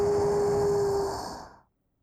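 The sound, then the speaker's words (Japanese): A soft breath is blown onto the right ear to cool it: one long, airy exhale of breathy hiss that holds steady, then fades away to silence. “右耳のほてりを冷まして、ふぅー、ふぅー、ふ”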